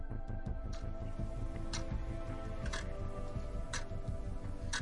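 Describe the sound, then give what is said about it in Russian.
An antique clock in a conference room ticks with sharp, regular clicks about once a second over a dense, low, humming background. “Антикварные часы в конференц-зале оглушительно тикали.”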